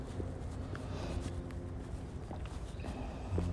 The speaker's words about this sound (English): Child two now walking along the railings.